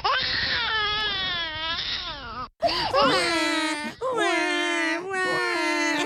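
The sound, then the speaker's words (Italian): Babies crying, heard as wavering, high-pitched wails in a few long bursts separated by brief breaks, loud and sustained, with sobbing rises and falls in pitch. “E come fanno i babies on the bus, i neonati sul bus?”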